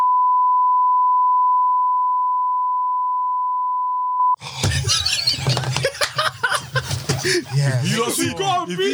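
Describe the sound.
A steady, pure censorship beep holds one pitch for about four seconds, then stops abruptly. Lively talk and laughter follow.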